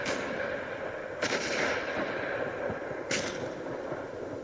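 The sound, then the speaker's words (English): Guns firing at the front on 11 November 1918, near the end of the First World War: two brief cracks stand out over a steady wash of background noise, a couple of seconds apart, fairly faint overall. “The guns are still firing.”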